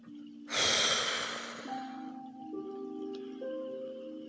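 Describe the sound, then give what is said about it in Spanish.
A held breath blown out forcefully: one loud, breathy rush of air bursts out and fades over about a second, while soft sustained tones hum underneath. “Inhala. Sostén y sopla.”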